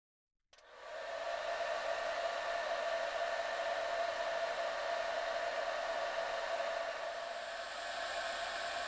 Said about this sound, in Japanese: 髪の毛乾かしていきますからね。